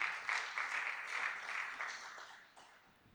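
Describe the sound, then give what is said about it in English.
Faint audience clapping, a soft patter of many hands that gradually thins and fades toward the end. “please don't clap.”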